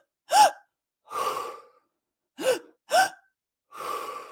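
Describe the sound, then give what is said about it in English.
Someone demonstrates a calming breathing technique of two sharp inhales and a sigh: five breath sounds mixing short, sharp gasping inhales with longer, breathy sighing exhales, ending with two quick inhales and a final sigh. “It's two sharp inhales and a sigh and it goes like this.”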